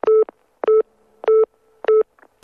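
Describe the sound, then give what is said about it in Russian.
An unanswered phone call rings as four short, evenly spaced electronic tone bursts at a steady mid pitch, sounding alone with no talk. “Блин, почему ты не берешь трубку?”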